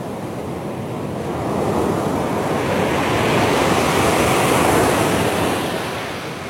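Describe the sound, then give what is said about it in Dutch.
Sea surf breaks on a pebble beach in Suffolk with no sandbanks offshore. A broad, rushing wash swells over several seconds to a peak and then slightly recedes, steady and fairly loud, mixed with some wind noise. “En het valt hem op dat de branding daar anders klinkt dan bij ons. Geen zandstrand, maar kiezels. En geen zandbanken, dat zal het ook zijn.”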